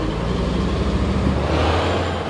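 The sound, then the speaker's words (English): Low, heavy rumble of a huge garbage truck rolling past between tree-covered cliffs near a creek and the sea, by an overfilled dump. The roar stays loud and steady, with no pause for the whole stretch. “But the idyll is kind of spoiled about every 5 minutes when a huge garbage truck rolls on by.”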